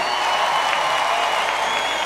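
An audience applauds as a Hasidic music singer is introduced at a live event, producing an even, loud wash of clapping that holds steady without pause.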